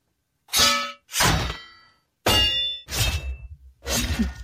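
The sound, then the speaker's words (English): Swords clash in a slow practice drill of blocking and countering: about five bright, ringing metallic clangs spaced by short pauses, each strike leaving a shimmering, sustained ring before the next, with no voices. “Now let's see how you do with a sword. Okay, let's give it a shot. We will start slowly. Now block and counter.”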